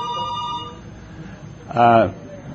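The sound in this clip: A telephone rings in a busy place where many calls come in, giving one brief burst of buzzy electronic ringing that stands out clearly over a low, steady murmur of background noise.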